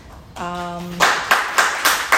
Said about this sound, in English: That clapping is not for me. That clapping is for whatever this program has helped me do.